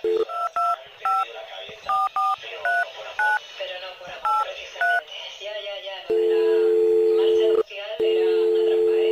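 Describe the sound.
Telephone keypad tones dialing a call to the police: a quick, uneven series of clean two-note beeps, followed by a steady, loud ringing tone that briefly cuts out before resuming.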